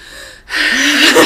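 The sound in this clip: A deep, sharp breath is drawn in as a single loud, rushing gasp, starting after a brief pause and lasting about a second.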